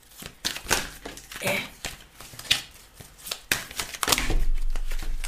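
Spiritual reading cards are shuffled and drawn in many quick papery riffles, slaps and crinkles, uneven in rhythm and growing denser toward the end.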